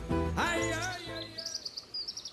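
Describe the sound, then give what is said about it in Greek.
Small birds chirp outdoors beside a stone bench from the 1500s, a quick series of high, thin tweets following a sustained tonal sound at the start. “Τώρα εσύ ακούς πουλάκια εδώ γύρω και τέτοια, γιατί εγώ είμαι έξω σε ένα πέτρινο του 1500 παγκάκι”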